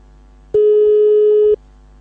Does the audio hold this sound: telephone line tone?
yes